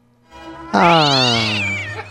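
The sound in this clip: A cat meows once in a long, drawn-out, high-pitched call lasting over a second. It is loud, with the pitch bending slightly through the call, and no one talks over it.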